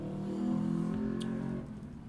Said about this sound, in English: As one of them drives past King's house.